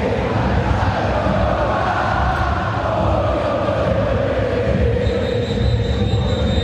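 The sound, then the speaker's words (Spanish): Steady roar of a nervous football stadium crowd, Boca supporters urging their team to move forward during a match, forming a dense, continuous wash of voices at even loudness. “Escuchen al público de Boca que está nervioso. Que le está pidiendo el equipo que se mueva.”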